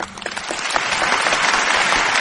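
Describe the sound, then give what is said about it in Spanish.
Applause breaks out after an award announcement, a dense, continuous clatter of many hands that swells slightly after the start and then holds steady. “Bueno, un aplauso.”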